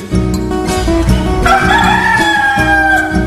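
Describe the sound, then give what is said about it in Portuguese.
A speckled rooster gives a long, drawn-out crow of about two seconds. It rings out loudly over steady, sustained low tones. “Quando o galo carijó solta o canto do bulê,”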